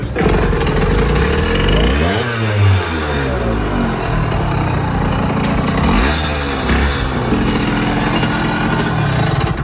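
A Kreidler moped engine of German make, pushed to start, buzzes loudly and continuously with a high, raspy drone. Two distinct swells in revs rise and fall within the steady running.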